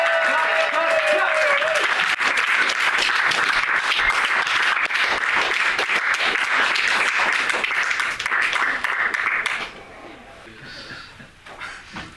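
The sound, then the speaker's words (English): Enthusiastic audience clapping for headline acts, dense and steady for about nine seconds before fading to scattered claps, with a voice briefly heard at the start. “Clap, clap, clap, clap,”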